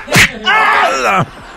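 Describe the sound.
Whip crack sound effect in a Spanish-language comedy parody segment: one loud, sharp smack followed by a drawn-out groaning cry.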